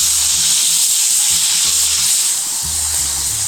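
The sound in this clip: Food, with thyme, sizzles and fries in hot oil as it is stirred. A steady, bright hiss fills the whole stretch, with faint low knocks now and then underneath.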